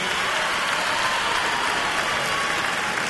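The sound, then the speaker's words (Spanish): Crowd applause at the Cosquín Rock festival in Córdoba, Argentina, a dense, hissing wash of many hands clapping that stays loud and even throughout, with no distinct voices. “Fuerte el aplauso, por favor, Tours, carajo.”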